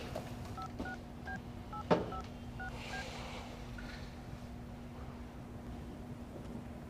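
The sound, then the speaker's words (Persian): Touch-tone beeps of a telephone being dialed to place a call: many short, evenly pitched tones in a series over a steady low hum, with one sharp click partway through. The beeps are faint. “اجازه بدین یه تماس بگیرم.”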